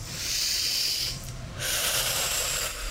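A deep breath taken before a needle injection: a soft, breathy hiss drawn in and let out with a brief dip midway, faint and heard alone.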